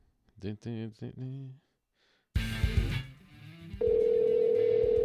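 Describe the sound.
An outgoing telephone call: a voice talks briefly, then a noisy, busy burst of sound follows, and a loud, steady, unbroken line tone takes over until the end.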